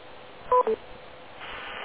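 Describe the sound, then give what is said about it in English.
Two short touch-tone dialing beeps from a phone keypad, used to send amateur radio call letters over Echolink. They sound in quick succession, then only a low, steady hiss remains. “In other words, are you sending your call letters by way of the touch phone pad?”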